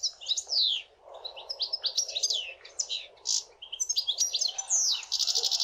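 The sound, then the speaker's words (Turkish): A European goldfinch sings a rapid, twittering song of high, bright chirps and liquid trills. The phrases run almost continuously with brief pauses and sound alone, with no voices. “Şimdi bir sakayı dinleyelim.”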